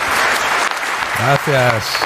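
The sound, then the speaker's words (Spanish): An audience applauds at a live show as a guest is welcomed. Dense, steady clapping runs throughout, and a voice calls out briefly over it midway. “Por favor, un aplauso para Sergio, que ya está aquí.”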